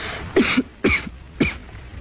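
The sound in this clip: A woman with a bad cough coughs three times in quick succession. Each cough is a sharp, rough burst, and short breathy pauses separate them.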